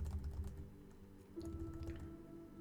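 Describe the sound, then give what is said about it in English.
Quick typing on a computer keyboard, a faint, continuous patter of key presses with no pauses. “just trying to type.”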